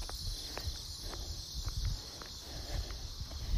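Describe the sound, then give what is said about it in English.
Footsteps walking uphill on Ridge Road fall as irregular soft steps beneath a steady, high insect chirr. “Walking up the next hill to the top of the Ridge Road.”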